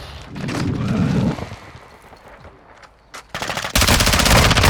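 Gunfire crackles in a video game: several bursts of rapid automatic shots, a quieter lull, then a loud, sustained volley that runs to the end.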